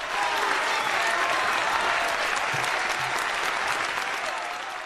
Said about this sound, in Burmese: တောင်းနဲ့ချီတဲ့ရှန်ရန်လျင်စက်ယုံကဝန်ထမ်းတွေစီကကျဲလောင်းတဲ့အားပေးတန်လက်ခုပ်တီးတန်တွေထွက်ပေါ်လာပါတယ်